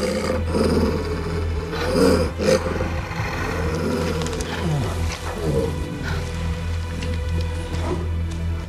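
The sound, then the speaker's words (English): An alpha male wolf growls at a bear over a carcass: a low, raspy, rumbling growl that runs continuously and stays loud throughout. “Alpha male's growling does little to unsettle the bear, which continues to rub its scent over the carcass's exposed flesh.”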